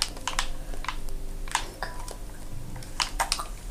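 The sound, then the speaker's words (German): Computer keyboard keys pressed during a video game session, many irregular, sharp clicks in quick bursts with short pauses, fairly faint. “ich drücke immer die falsche Taste.”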